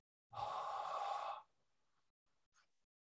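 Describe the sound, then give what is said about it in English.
A deep, profound exhalation voiced on a breathy H sound, part of a guided mantra practice. One long, steady, airy breath lasts about a second, followed by a couple of much fainter breaths. “we then exhale very profoundly with a vowel H, like this.”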